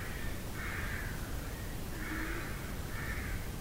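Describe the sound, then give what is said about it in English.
Rooks calling from a tree in the early morning, a few hoarse, rasping caws spaced apart over a steady background hiss. “Listening to it like we listen to those rooks out there. You know, you don't really listen to individuals, you listen to the whole tree. You get a feel, okay, this is early morning, they're quite peaceful right now.”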